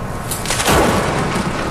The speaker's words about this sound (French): Là, ce que tu entends, c'est les coups de foudre.